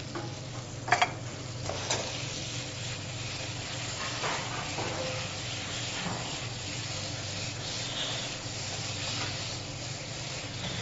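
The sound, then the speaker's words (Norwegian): Tomato paste sizzling as it fries in spiced oil with meat for a lamb korma: a steady, dense hiss of frying, with a few sharp clatters of stirring early on. “Når dette her blir rørt godt sammen, krydderet går inn i kjøttet, og ikke minst også over i oljen, så tilsetter du da en god skje tomatpuré.”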